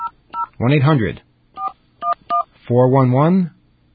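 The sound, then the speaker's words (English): Touch-tone keypad dialing a toll-free number on an old-fashioned line: several short, crisp two-note beeps spaced unevenly, with two longer stretches of voice between them. “Let's get a dial tone. All right, that's one of our old-fashioned dial tones. And we call this number,”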